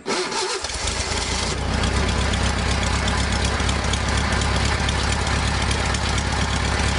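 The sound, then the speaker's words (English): A classic Volkswagen Bug engine cranks and catches, then settles into a loud, steady, rumbling idle that swells slightly after the first seconds and holds evenly to the end. “we were talking about the sound of those classic VW Bugs before they remade it into the Beetle. Yeah. This is it.”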